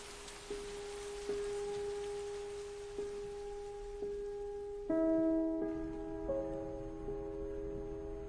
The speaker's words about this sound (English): She stands quite still, the rain beating down all around her.